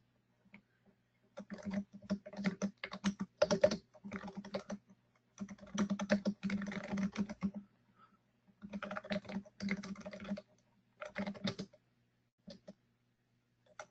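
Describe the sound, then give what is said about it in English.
Typing on a computer keyboard comes in several quick bursts of rapid, uneven key clicks separated by short pauses, fairly quiet and with no voices. “It would really help if I could type.”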